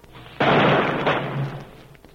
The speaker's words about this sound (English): A volley was fired across his grave.